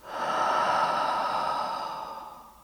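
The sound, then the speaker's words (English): A deep breath drawn in and let out through the mouth during a guided relaxation exercise. It is a single soft, airy rush that swells quickly and then tapers away over nearly three seconds, with no talk. “Let's take a deep breath in. Out through the mouth.”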